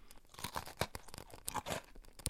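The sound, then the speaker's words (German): Crunching of cookies being bitten and chewed: a series of crisp, dry, irregular crackling bursts, quiet overall, with no voices. “Lecker, Kekse.”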